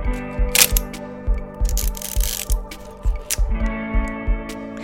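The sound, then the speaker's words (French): Sharp mechanical clicks of a film camera's shutter being released, a few crisp snaps over a steady tonal background. “On fait la mise au point, on vise et on appuie.”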